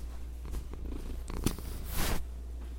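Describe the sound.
A cat purrs in a soft, steady low rumble that runs throughout, faint and alone, with a brief airy rustle near the end.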